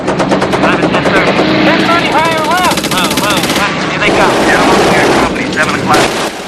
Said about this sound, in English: Rascal fires from the ball turret.